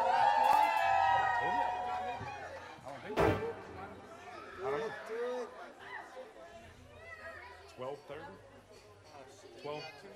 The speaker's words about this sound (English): All the ladies in the house, make some noise.